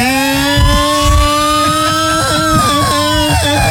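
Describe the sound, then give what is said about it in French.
Loud engine of a 25 cc scooter, a buzzing, harmonic-rich drone whose pitch climbs gently and then eases back down, with a few low rumbling bumps underneath and no voices. “Il est là avec son magnifique, scooter, 25 cm cube, la grande folie, évidemment.”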